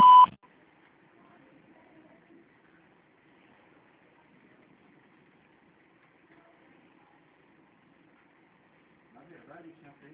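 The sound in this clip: A voicemail beep follows the greeting: one short, loud electronic tone, then a long near-silent stretch with only faint sounds creeping in toward the end.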